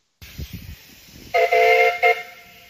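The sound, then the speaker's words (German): A steam train whistle sounds on a lake railway in Snowdonia, a loud, bright, held blast followed a moment later by a second, shorter toot, after some brief low rumbling at the start. “Und das war die Baller Lake Railway. Mit der sind wir auch gefahren.”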